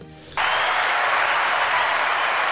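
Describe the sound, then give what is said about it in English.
Studio audience applause sound effect that bursts in abruptly after a brief quiet moment and holds at a loud, even level throughout. “Thank you. Studio audience, love that.”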